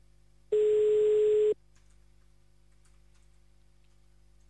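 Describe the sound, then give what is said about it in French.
A telephone ringback tone sounds as a call is placed to Liège: one steady, moderately loud tone lasting about a second, then a long silence, then the next tone just starting. “Allez, on appelle à Liège maintenant, c'est parti, à Liège”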